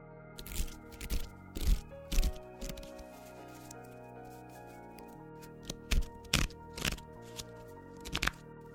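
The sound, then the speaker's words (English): Cards being handled as one is pulled at random from a Gabrielle Bernstein affirmations deck: crisp papery snaps and shuffling crackles in two bursts, over a quiet sustained musical background. “I start off every episode by pulling a card at random from my affirmations card deck by Gabrielle Bernstein.”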